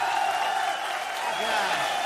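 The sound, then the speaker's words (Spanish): Applause welcomes a performer onto the stage at a norteño music show, a fairly soft, even clapping that holds steady with a voice talking over it. “Vamos a recibir con un aplauso, pero bien machina”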